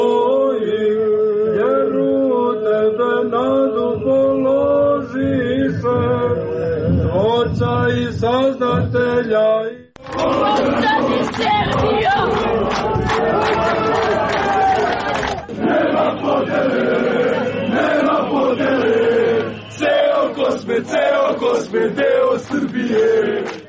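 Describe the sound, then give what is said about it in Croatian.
Crowd at Gazimestan singing together and chanting political slogans: loud, sustained massed voices, with the singing sounding more tonal at first and then giving way to denser shouted chanting. “To je dakle atmosfera, čuli smo da se peva, ali da se uzvikuju i političke parole.”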